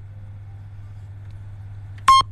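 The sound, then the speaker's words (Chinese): A radio time-signal beep: one short, bright, high-pitched electronic tone sounds near the end, after a stretch of faint, steady low hum. “听听报时声音回来继续今夜情为证”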